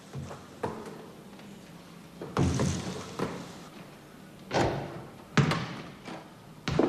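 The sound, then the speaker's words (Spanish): A basketball is shot at a hoop at home, giving several dull thumps and bangs at uneven intervals over quiet background noise. “tira a canasta en su casa”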